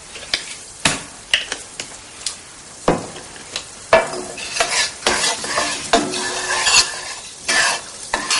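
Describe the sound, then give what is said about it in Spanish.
Something from an apron pocket is tossed into a hot frying pan in a kitchen, setting off a sizzle with many short stirring and scraping clatters in a steady, uneven rhythm. “echa algo del bolsillo del delantal a la sartén”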